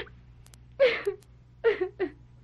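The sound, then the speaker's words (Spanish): A woman cries in a few short, quiet sobbing whimpers that come in two small clusters, with brief silences between them. “Mira, no llores nada. No llores nada y háblame.”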